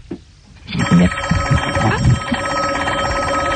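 A telephone rings on a direct line, a steady, continuous electronic ring that starts within the first second and holds unbroken to the end.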